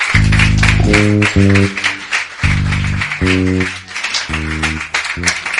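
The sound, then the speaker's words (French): A church audience cheers and applauds, a dense wash of claps and voices over bold, sustained keyboard chords that stop and restart several times. “Est-ce qu'on peut acclamer une fois encore? Acclamer.”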